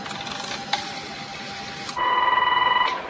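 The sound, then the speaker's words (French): A telephone line rings as a call is placed to a computer: a stretch of faint line hiss with a click, then a single warbling, rapidly pulsing ring burst. “Par la ligne téléphonique associée, Sophie appelle l'ordinateur.”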